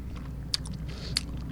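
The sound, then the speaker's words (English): Bites into a lemon after eating miraculin. Two crisp, juicy crunches stand apart from each other over a quiet, faintly hissing background. “Try your lemon first. I'm going to try a lemon, okay.”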